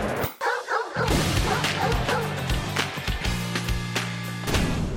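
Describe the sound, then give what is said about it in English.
Barking and yipping from a purebred Shih Tzu, a few sharp calls over a steady, busy background of noise that fills the whole clip. “That's my dog.”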